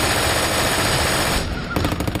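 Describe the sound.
Very fast fire from a German belt-fed 7.92 mm machine gun, a loud, dense, continuous roar of rounds that breaks into distinct rapid pulses near the end.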